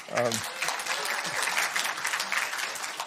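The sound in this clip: An audience breaks into applause to welcome a speaker to the front, dense steady clapping from many hands that holds evenly throughout, with a brief voice at the very start.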